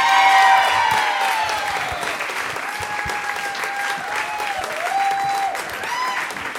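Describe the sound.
A live audience gives loud, dense applause to welcome two guests back to the stage. It is strongest at the start and carries some high tonal wails above the clapping.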